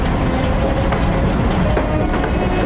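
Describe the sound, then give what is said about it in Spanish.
Low, steady rumble of a train beginning to roll slowly away from a station platform hung with swastika flags in a World War II drama, a continuous mechanical drone with faint tonal hums and no distinct beats. “El tren empieza a avanzar lentamente ante el andén, sobre el que ondean esvásticas.”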